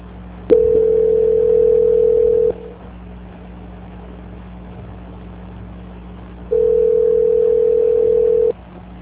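Telephone tones during a call transfer: two long, steady beeps of a single pitch, each about two seconds. A quiet stretch of faint line hiss separates them, with no talk.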